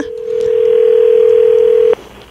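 Telephone line tone of an incoming call to a live radio call-in show: a loud, steady mid-pitched tone holds for about two seconds, then cuts off abruptly into low hiss.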